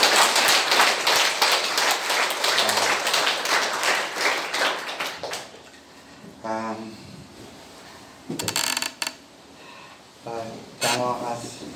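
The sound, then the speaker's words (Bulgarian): A church audience breaks into loud, rapid applause for about five seconds, then the clapping fades and a voice speaks, with a few short bursts of sound between the words. “Нека да отдадем слава на Господа за ръкопляскане.”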